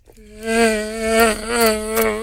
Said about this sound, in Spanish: El mosquito del África. ¿Qué? Es un mosquito, el. Bien exótico.